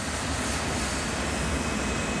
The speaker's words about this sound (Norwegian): Kaptein Van Santen starter standardprosedyren som alltid finner sted før flyet tar av, og hever og senker gasspedalen sakte.